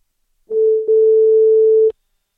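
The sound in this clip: A telephone dial tone hums as a call back is placed: one steady, mid-pitched tone that holds for about a second and a half, with a brief dip near its start, and no other sound around it.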